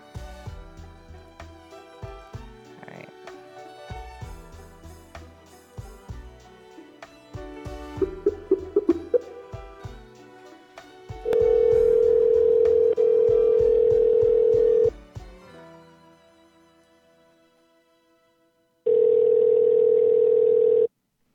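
Telephone tones as a call is dialed: a busy run of short beeps and tones, then a loud steady tone held for several seconds, a pause, and the same steady tone returning briefly.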